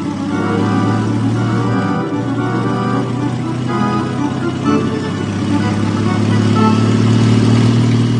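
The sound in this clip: Steady car engine drone as the vehicle drives along toward a harbor, a continuous mid-low hum with even loudness and only slight variation throughout.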